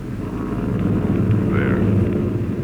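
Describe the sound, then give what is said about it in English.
Droning rumble of bomber aircraft engines approaching overhead: a continuous, loud, low throb that holds steady throughout, with no voices. “The bombers are coming from the north, looking for a clear place to turn in over the land.”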